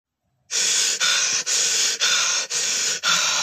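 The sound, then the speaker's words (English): Heavy panting of someone out of breath after playing football: six loud, rasping breaths in an even, quick rhythm, each a harsh burst of air, with no talk. “I am out of breath already.”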